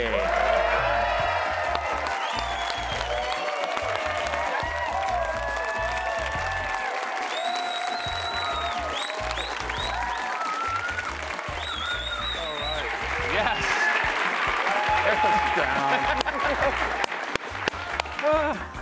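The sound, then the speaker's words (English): A studio audience gives a sustained standing ovation for the BYU Cougars head football coach as he walks into the studio. Dense clapping runs with cheers and whoops throughout, swelling slightly near the end, with some talk underneath. “Just a standard standing ovation that you get when you walk into every room.”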